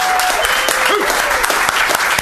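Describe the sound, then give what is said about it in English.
Enthusiastic crowd applause after a candidate's campaign speech in a congressional race: dense, steady clapping that runs loud and unbroken through the whole clip. “a very enthusiastic crowd for Alex Sink”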